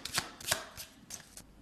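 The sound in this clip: A deck of cards being shuffled hard before a task card is drawn: several quick papery riffling bursts, moderately loud, with short gaps between them and no voices.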